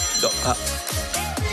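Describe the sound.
Mobile phone ringing in a radio studio, a melodic ringtone of repeating tones at moderate loudness.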